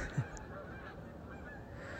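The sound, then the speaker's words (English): Geese honk overhead: one short, low honk stands out early against a steady, noisy background that continues through the rest of the moment. “Oh, the geese are right above me.”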